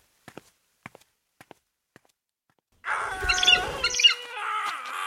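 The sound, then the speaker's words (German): Faint footstep-like taps in a garden outside, a few soft, spaced thuds, give way to bright, busy bird chirping and twittering that starts suddenly near the middle and continues loud to the end. “Vielleicht sollte ich draußen im Garten spazieren gehen.”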